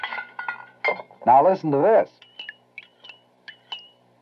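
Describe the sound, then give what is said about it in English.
A spoon clinks against a coffee cup as powdered creamer is stirred into morning coffee. A man speaks briefly first, then a series of light, bright, high clinks follow at an uneven pace. “That's the sound of Preem lightening up your morning coffee.”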